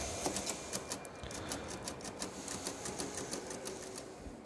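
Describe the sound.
Keys of a mechanical adding machine in a computer museum being pressed: many quick, crisp mechanical clicks in a fast, uneven rhythm, fairly faint, with no talking.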